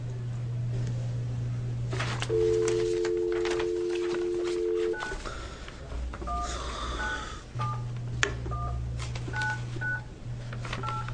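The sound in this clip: Telephone dialing tones: a sustained two-tone beep followed by a quick, uneven string of many short touch-tone beeps over a steady low hum.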